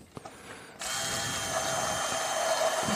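An immersion blender whirs as it blends about 200 ml of oil. A brief quiet start with a few small knocks gives way to a loud, steady motor drone that holds evenly to the end.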